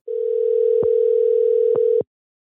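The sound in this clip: A phone line tone sounds on an outgoing call. One steady, loud, pure hum holds for about two seconds, marked by a few sharp clicks, then cuts to silence.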